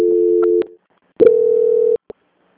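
A telephone line plays steady electronic tones while a bank call is transferred: one tone that cuts off with a click, then after a pause a second sustained tone. It ends abruptly, followed by a short blip.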